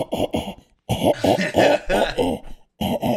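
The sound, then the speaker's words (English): A voice imitating stifled coughing that sounds like growling, as someone coughing while hiding in a bathroom at 3 a.m. Many loud, rough, throaty bursts come in quick clusters with short pauses. “Imagine at like 3 a.m, you wake up and you're like, there's like a growling noise in the bathroom.”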